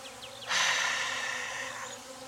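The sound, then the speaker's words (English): Bees buzzing and crawling inside a hive among worker bees: a dense insect hum that swells suddenly near the start, then holds as a steady, fairly loud buzz with no voices. “the bees are crawling on them, not ignoring them”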